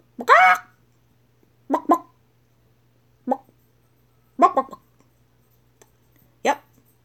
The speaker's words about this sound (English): So chicken, bawk, bawk, bawk, bawk